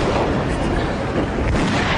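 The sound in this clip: Gunfire in a radio drama sea fight comes as a dense, continuous booming roar with heavy low rumble, loud throughout and without clearly separate shots.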